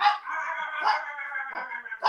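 A pet dog barks at home: a few pitched, whining barks run close together over about two seconds, fairly faint and with no talk over them.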